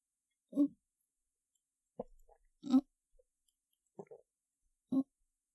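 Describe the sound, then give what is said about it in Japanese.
Five short, soft gulping sounds, separated by silence, as a person swallows two pills with a drink of water. “ひとまずこの2錠だけ。お薬飲んじゃうね。お水。ありがとう。”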